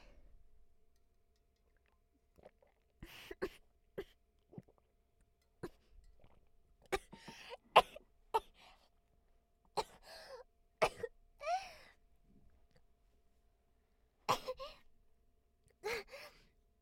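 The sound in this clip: Coughing after choking on water, a quiet, irregular series of many sharp coughs and gasps, some in quick clusters, separated by pauses.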